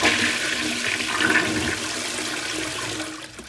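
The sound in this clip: A toilet flushing: a steady rush of swirling water that runs for several seconds at fairly even loudness and tapers slightly at the end, with no voices.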